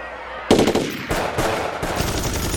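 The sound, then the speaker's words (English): Machine gun fire as troops shoot into a crowd. It opens abruptly after a quiet lead-in, then sustained, loud, rapid bursts continue to the end. “The troops open fire on the crowd.”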